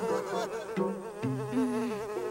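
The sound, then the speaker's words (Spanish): A bee buzzes in a continuous, wavering drone that shifts pitch in a few steps, staying fairly loud throughout. “¡Claro! A las abejas les gustan las flores. Si seguimos a esta, nos llevará a ellas.”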